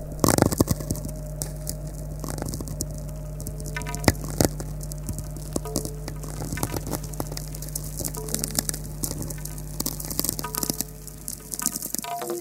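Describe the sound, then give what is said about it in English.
Natural radio emissions, spherics and tweaks from lightning storms and solar wind, recorded on a seaside cliff in summer with the signal grounded through bare feet on rock: dense, continuous crackling clicks and pops over a steady low hum. “This is the sound of natural radio emissions from space, generated by lightning storms in the Earth's atmosphere and the sun's solar wind interacting with the magnetosphere.”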